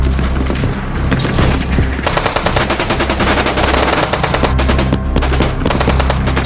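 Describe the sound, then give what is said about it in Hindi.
Machine-gun fire from commandos cornering two gunmen in a hotel room: many rapid shots run together in loud, dense, continuous bursts, with no voices. “Rahman ने जब भागने की कोशिश की तो NSG की गोलियों ने उसे छलनी कर दिया।”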